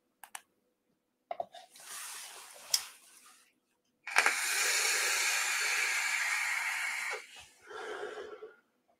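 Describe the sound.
An electronic vape fired at 200 watts during a hit: a few sharp clicks and a softer hiss, then a long, loud, steady rush of hissing vapor lasting about three seconds before tapering off into a short final puff.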